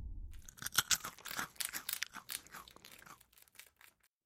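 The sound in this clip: A creature eats a corpse with wet crunching and chewing. Irregular crunches, tearing and smacking come in a quiet, busy burst, then thin out and fade to near silence.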